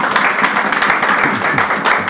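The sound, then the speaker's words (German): Audience applause for an event's technical crew, a dense and steady patter of many hands clapping that stays even for a couple of seconds. “Gebt ihnen mal bitte einen Applaus.”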